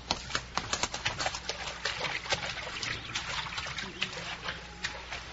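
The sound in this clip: A horse ridden across a shallow river: many soft splashes and trickling water with irregular hoof plops, fairly faint and continuous throughout.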